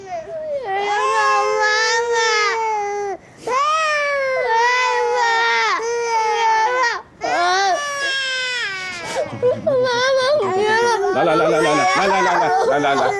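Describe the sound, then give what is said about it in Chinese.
A child crying in distress on a school morning, with loud, sustained wails in long pitched bursts. Brief gaps for breath separate the wails, and the crying breaks into choppier, sobbing cries toward the end. “别哭了。”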